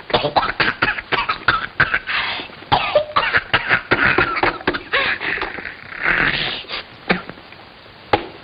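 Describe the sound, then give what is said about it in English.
Coughing from someone choking on a peanut stuck in the throat: a rapid run of many harsh, sputtering coughs and throat-clearing bursts, loud and closely spaced, with a final isolated cough near the end. “Excuse you, see, one of them peanuts got stuck in her lummox.”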